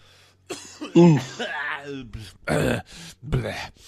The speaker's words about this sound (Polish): przepraszam, muszę odkaszlnąć